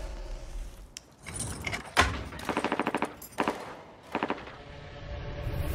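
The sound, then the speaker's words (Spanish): Automatic gunfire from an armed attack on athletes in an Olympic Village comes as a rapid rattling string of shots followed by a shorter burst, with a few isolated thuds around them at a moderate level. “¿Oís eso? ¿Eso han sido disparos?”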